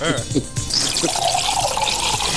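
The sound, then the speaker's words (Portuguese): Liquid poured into a glass, a steady splashing stream with a ringing, hollow tone that runs on for a couple of seconds after a brief voice at the start. “Tá enchendo o copo mesmo, hein?”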